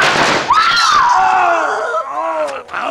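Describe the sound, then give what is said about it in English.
Gunshot in a Western shootout as guns are shot from gunmen's hands: a sharp burst followed by a long ricochet whine that slides downward in pitch and fades. “The next bullets will do more than shoot the guns from your hands.”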